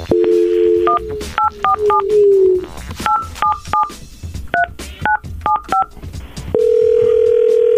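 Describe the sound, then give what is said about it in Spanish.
Telephone keypad tones dial a number. A steady dial tone comes first, then many short beeps in small quick groups, and the run ends in a long, level tone. “Entonces marco yo primero, ¿ok? Y después marcas tú”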